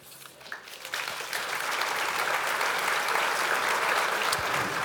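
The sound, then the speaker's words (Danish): Live audience applause at Historiske Dage in Øksnehallen, Copenhagen, from a crowd of about 60,000: the clapping starts thinner, swells after about a second and then holds as a thick, even roar of many hands. “så kan man jo altså høre, at der er ca. 60.000 publikummer samlet i det, der hedder Le Grand Salon på historiske dage i Øksnehallen i København.”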